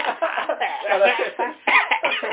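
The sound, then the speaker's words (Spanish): Coughing into a microphone: a few harsh, choppy bursts, close and somewhat thin in tone, separated by short gaps. “Ah, pero en este caso tos en el micrófono.”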